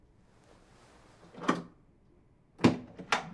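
A door being opened: a soft clunk, a short pause, then two sharper knocks of the latch and door swinging. The sounds are fairly quiet and no one speaks.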